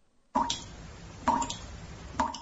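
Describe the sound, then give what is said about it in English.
Three water drips played as a sound effect, each a short, hollow plop, spaced at an even, unhurried pace with quiet between them. “I could put just some drips underneath it.”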